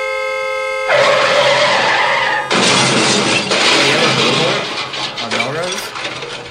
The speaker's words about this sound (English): And the crash.